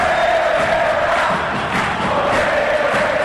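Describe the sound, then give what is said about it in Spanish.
A football crowd chants for the Paraguayan club Cerro Porteño at a match, a dense, steady roar of many voices singing together without pause. “Con este cántico, repito, el público soberano, ¡déjalo bailar! ¡Vamos, Cerro Porteño, carajo!”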